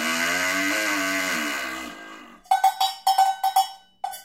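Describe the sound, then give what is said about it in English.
Cowbell struck in a quick, uneven run of about nine bright metallic knocks with a clear ringing mid pitch, coming after a sustained buzzy harmonic tone that fades away. “You got a cowbell? That's awesome.”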